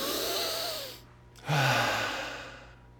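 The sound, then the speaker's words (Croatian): A deep breath drawn in and let out during a guided relaxation exercise: a long, airy inhale, a short pause, then a breathy exhale that slowly fades. No one speaks. “jedan duboki udah, izdah”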